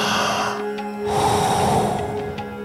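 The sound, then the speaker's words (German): A deep breath is drawn in and let out during a breathing exercise, heard as a soft, breathy rush of air that grows stronger in the second half, with no talking. “Voll einatmen und dann wieder loslassen.”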